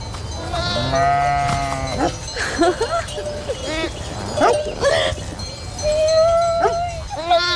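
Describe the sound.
Ewes bleat to call their lamb, with overlapping wavering cries, some deep and some higher-pitched, loud and nearly continuous throughout.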